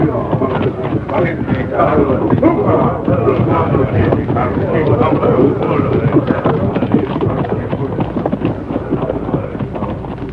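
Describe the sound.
Hoofbeats of a war party's horses riding past make a dense, continuous drumming rumble that holds steady throughout.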